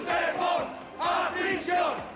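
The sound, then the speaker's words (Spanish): Hundreds of protesters chant against the amnesty outside the Casa del Pueblo on calle Argandona in Gijón. Short rhythmic chanted phrases come in quick, forceful bursts from the massed voices. “Este es el sonido de las últimas horas en España y también se ha escuchado aquí, en Gijón. Centenares de personas se han concentrado este lunes frente a la Casa del Pueblo de la calle Argandona para protestar contra la amnistía”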